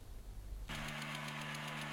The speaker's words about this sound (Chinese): 在我的身后，四台大马力的气息播种机正在全力推进，完成最后一块大豆田的播种作业。